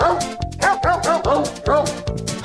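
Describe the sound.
Sampled dog barks arranged into a song with a cheap Christmas-soundtrack feel: many pitched, yelping barks follow a bouncing melody over a steady sustained note.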